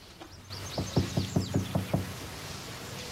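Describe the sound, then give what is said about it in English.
Knocking on a motel room door, a quick run of evenly spaced, firm knocks with a hollow wooden tone, followed by quiet. “They go up to their room and knock.”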